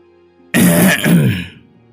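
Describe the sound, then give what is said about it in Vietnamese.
A single loud, gruff throat clearing, about a second long, stands alone against near silence. “Đang lúc hai người ôm nhau âu yếm, liền nghe tiếng hắng giọng.”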